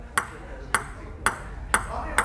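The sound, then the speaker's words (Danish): A table tennis ball is hit back and forth by one person playing ping-pong alone in a downstairs room, making five crisp, bright taps at a steady, unhurried rhythm. “Og det er lyden af mig, der står og spiller bordtennis med mig selv.”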